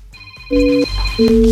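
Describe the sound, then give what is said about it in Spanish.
Telephone keypad tones as a number is dialed: two short, steady dual-pitched beeps, each lasting about a third of a second, separated by a brief pause. “Marca 929”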